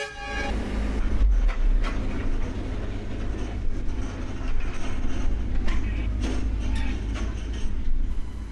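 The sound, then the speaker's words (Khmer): A train at the station serving Phnom Penh International Airport, on a Royal Railway service: a loud, steady rumble of rolling stock with scattered clanks and clicks throughout, and no voices. “លោករស្មីជាចន្ទដារាទើបនឹងចុះពីលើរថភ្លើងដើរសំដៅរកស្ថានីយ៍ចេញដំណើរក្នុងអាកាសយានដ្ឋានអន្តរជាតិក្រុងភ្នំពេញ”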